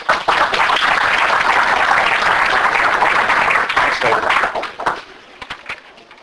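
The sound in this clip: Audience applause welcoming a speaker at a philosophers' forum in Dallas: dense, steady clapping that holds strongly for several seconds, then thins into scattered claps and fades.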